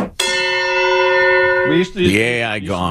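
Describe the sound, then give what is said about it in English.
Gong sound effect, one bright struck tone with rich ringing overtones that sustains for about a second and a half before a voice begins talking over its fading ring. “it's the AI gong”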